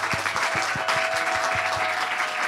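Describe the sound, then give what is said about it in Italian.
Audience applause welcoming a musician onto a stage: steady crowd clapping with sharp, overlapping hand claps, moderately loud and even throughout the short burst. “Prima lo salutiamo con un applauso innanzitutto.”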